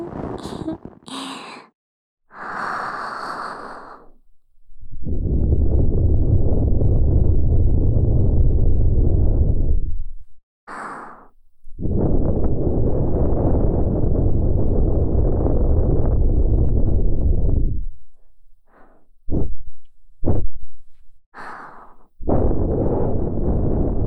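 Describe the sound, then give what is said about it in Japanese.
Soft air blown into the ear in an ASMR session: a few short breathy puffs, then two long, steady, whooshing blows of several seconds each, and a last blow at the end. Quiet gaps separate the blows. “じゃあこれからすっごくフーフーして仕上げますね。”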